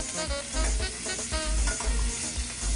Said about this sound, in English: when you look professional, shake that skillet. So I'm just gonna give it a quick flip. So we're gonna finish cooking while we're building our sauce.